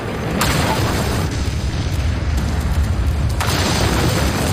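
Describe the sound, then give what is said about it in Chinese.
Explosion from detonating charges at a wartime bridge over the Rhine. A deep, loud rumbling roar sustains throughout, with two sharper blasts punching through, one near the start and one near the end. “弗里森汉惊慌失措，按下了引爆按钮”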